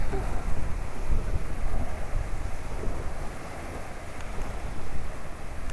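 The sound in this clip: Steady wash of sea waves on a crowded beach on a hot day, with people lying in the water. A broad, even roar carries through with some wind noise and no clear breaks.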